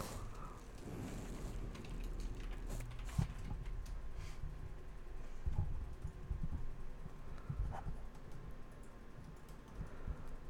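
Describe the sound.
Typing of a search on a computer keyboard: many soft, irregular key clicks run faintly through the whole stretch, with a few sharper taps standing out.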